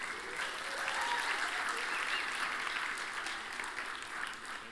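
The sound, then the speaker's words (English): Applause from a church audience for the winner of a chocolate cake prize: a dense, steady clapping that holds at an even loudness for the whole stretch, with no voices standing out. “All right, everybody, give it up for David.”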